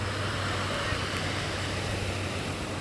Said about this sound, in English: I'm sitting in front of the Pacific Ocean, vast and endless.